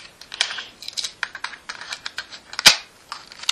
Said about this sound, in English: I'm going to flip the tape here. If I can figure out how to.